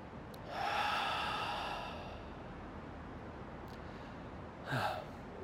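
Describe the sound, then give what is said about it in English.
Deep centering breath taken by one person at a worship gathering, a long airy inhale of over a second, then a short, fainter breathy puff a few seconds later. “I'd like to invite you to join me in taking a deep, centering breath.”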